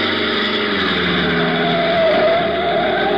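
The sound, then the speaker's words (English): A black sedan climbs a curving mountain road in Puerto Rico's inland plantation country. Its engine gives a steady, loud droning hum that swells slightly near the middle, with no talking. “20 minutes later, a black sedan twists up the curving mountain road leading to the inland plantation country of Puerto Rico.”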